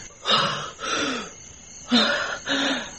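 Gasping breaths of a person being revived by artificial respiration, four raspy, voiced, strained gasps in two pairs with short pauses between them, loud and alone.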